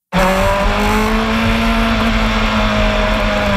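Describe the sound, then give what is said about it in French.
IndyCar race cars on a circuit in Markham, in suburban Toronto, make a loud, continuous, high-revving engine roar that holds steady for the whole few seconds, with no talk over it. “la course d'IndyCar, qui se tient à Markham, en banlieue de Toronto, cette fin de semaine.”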